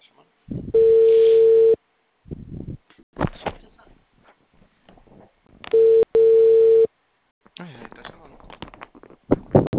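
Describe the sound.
Ringback tone of an outgoing telephone call: a few long, steady, mid-pitched tone bursts separated by pauses, with people talking in the gaps between rings.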